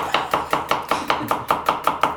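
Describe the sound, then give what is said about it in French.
Knife chopping onions and a tomato for a sauce, roughly a dozen crisp, evenly spaced cuts in a steady brisk rhythm, each a sharp tap, with no talk. “Je vais découper les oignons ainsi que la tomate.”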